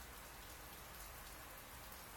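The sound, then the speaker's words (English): Sudden rain at a campsite falls as a steady, even hiss of many drops, soft and unbroken from start to finish, with no voices. “This rain came out of nowhere, and I don't have a rain fly for my hammock.”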